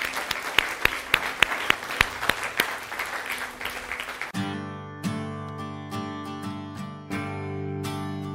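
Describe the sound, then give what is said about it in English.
An audience applauds those who accepted Christ at a church service, with dense, steady clapping and a few sharper claps for about four seconds, then sustained music tones take over. “Congratulations. Let's give hand to those who accept Christ.”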